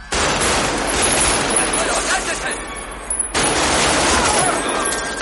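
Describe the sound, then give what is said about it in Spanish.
Heavy gunfire from the street shootout with police in the 1995 film Heat. Sharp shots crackle in dense, sustained bursts. A short break comes a little past halfway, then the shooting resumes just as loudly. “Neil gira y abre fuego a dos agentes. Corre con Chris que permanece cabizbajo y abre fuego de nuevo.”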